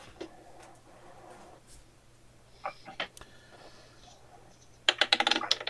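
Dice clatter across a table during a tabletop role-playing game session: a quick, bright burst of hard clicks and rattles near the end, after a stretch of quiet with faint scattered sounds.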